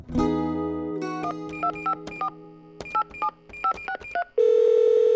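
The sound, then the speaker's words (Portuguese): A telephone number is dialed: a dial tone sounds first, then a run of short keypad beeps in uneven groups, and finally a loud, steady tone takes over and holds. “Telefonei para meu amigo Tom a fim de conversarmos.”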